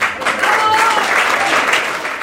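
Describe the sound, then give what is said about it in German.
Applause fills a hall at a Swiss party nomination meeting after a candidate's plea for a good list place: thick, unbroken clapping that stays steady and fairly loud throughout. “Der Applaus war trügerisch.”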